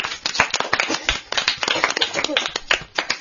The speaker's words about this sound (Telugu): ఒక్కసారి సాహితీకి అందరూ క్లాప్స్ కొట్టండి.